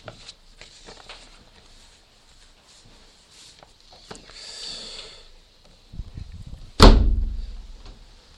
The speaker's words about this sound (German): So, jetzt können wir wieder die Fenster schließen und ich werde dann noch mit uns gemeinsam beten. Macht sie ruhig zu, sonst wird es zu kalt.